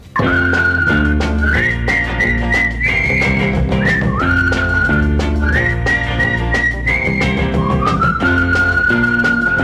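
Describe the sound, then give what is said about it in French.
A person whistles a bright little tune in a 1960s French pop song, the clear melody wavering up and down over a steady instrumental backing, loud and continuous. “Quand un garçon dans la rue rencontre un de ses copains, on lui siffle un petit air qu'il connaît plus ou moins bien.”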